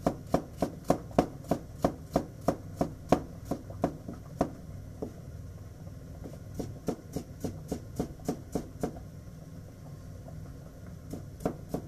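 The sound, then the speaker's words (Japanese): Knife mincing sliced ingredients on a cutting board while making arrabbiata spaghetti: many rapid, evenly spaced sharp chops in steady bursts, with a short pause midway and a few final chops, no voices. “はスライスしたものをみじん切りにしていく感じです。”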